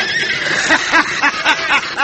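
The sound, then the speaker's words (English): Horses whinny loudly as bandits pelt them with rocks in a western scene, with a series of repeated shrill, wavering calls over a steady rush of noise. “Grab up some rocks, Holt. Fire them at them horses.”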